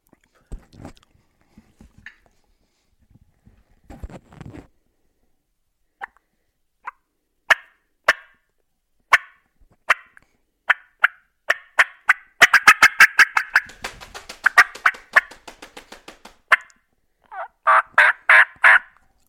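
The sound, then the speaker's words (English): Turkey hen's fly-down cackle with yelps: scattered sharp calls at first, then a fast, loud, irregular run of cackling notes, ending with a few strong yelps. “you let out a couple hard yelps to let him know you're there right before fly down. And then now you're actually laying the fly down cackle on him. So here it is.”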